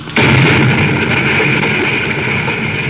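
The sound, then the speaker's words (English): Drama sound effect of surrounding mountains exploding and the ground heaving and shaking on an alien planet: a sudden loud blast that becomes a dense, sustained roaring rumble lasting the whole clip. “Then suddenly, halfway back to the Polaris, the surrounding mountains seem to explode, and the ground heaves and shakes beneath their feet.”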